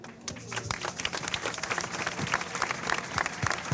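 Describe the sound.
Audience applause at a Venezuelan political event honoring beneficiaries of a housing program, a dense, even patter of many hands clapping throughout, moderately faint and sustained without a clear peak.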